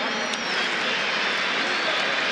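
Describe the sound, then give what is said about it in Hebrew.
Stadium crowd at a football international applauding as a midfielder is substituted off: a broad, steady wash of clapping and crowd noise, with a commentator's voice over it. “גם אלכסיס מקליסטר מסיים בכל תשואות הקהל.”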